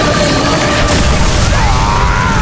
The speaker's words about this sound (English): It burned brighter than Kurok, and then, as the men pushed against each other, Garawashi's sword exploded.